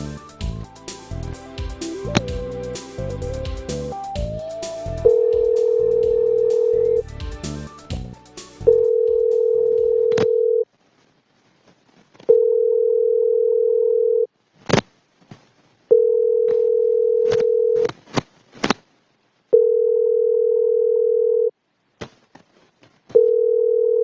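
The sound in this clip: Ringback tone of a phone call to a business in Twin Falls, waiting for an answer: after a dense, noisy opening, six steady, even tones repeat with short gaps broken by faint clicks.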